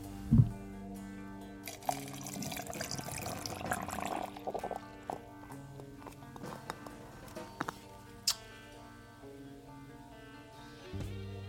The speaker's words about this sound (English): This comes from Illinois, and I'm going to pour it into a glass tonight.